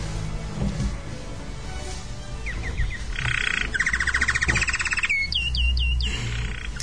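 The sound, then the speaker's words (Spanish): Small birds chirping in quick, high-pitched bursts: several short repeated series of tweets come in the middle and later part, clear above a steady low rumble. “Y con los árboles vienen los pajaritos.”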